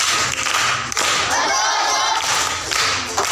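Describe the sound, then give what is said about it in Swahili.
Applause for a schoolchild reciting at a primary school: sustained clapping from a group, with a few louder thuds and brief dips in the middle. “Amepata. Makofi kwa mjomba.”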